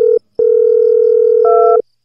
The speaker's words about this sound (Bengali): mobile নাম্বারটা dial করতেই